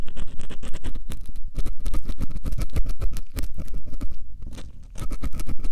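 Dense scratching and scraping from ASMR ear cleaning inside the ear canal, a loud, steady stream of rapid rough strokes with brief pauses and no talking.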